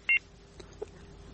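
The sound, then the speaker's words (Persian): A phone-in caller's line cuts off during a radio call-in show, leaving a single short electronic two-tone beep. The beep is loud and brief, followed by faint low line noise. “تماس شان از دست دادم، قطع شد، دوباره تماس بگیرین”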